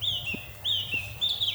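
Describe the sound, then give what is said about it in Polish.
A Eurasian blackcap sings in a lower mountain forest in the Bieszczady. Short, clear whistled phrases repeat at a steady pace, faint over a constant low drone. “Akurat kapturka cały czas z nami jest.”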